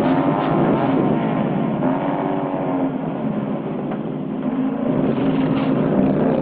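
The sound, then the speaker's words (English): A motorbike engine, started at a street curb, runs with a loud, steady, throbbing drone, its tone wavering slightly as it idles, with no voices. “He gets on his bike at the curb. Starts it.”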